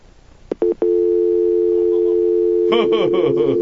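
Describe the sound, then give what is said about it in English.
Telephone dial tone: a few short tone bursts and clicks, then a steady, loud, buzzy tone held for several seconds, with a man's voice starting to talk over it near the end. “that's a dial tone. Ooh. Ooh. That's a horrific dial tone.”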